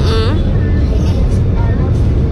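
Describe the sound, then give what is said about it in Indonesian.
A low, steady rumble of idling and crawling vehicles in a traffic jam on a road in Batu, Indonesia, heard under a person talking. “Macetnya sampai bawah soalnya. Tadi sudah dari atas sekali macetnya.”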